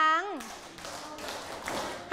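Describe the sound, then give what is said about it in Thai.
A class of students clapping their hands in unison on a teacher's cue, a steady run of several sharp claps following a short spoken voice. “ปรบมือ”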